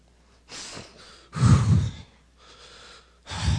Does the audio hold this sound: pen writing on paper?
no